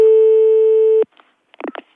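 Telephone ringing tone on an outgoing call to a garage: a single steady electronic tone lasting about a second that cuts off abruptly, followed by silence and a few short, faint sounds.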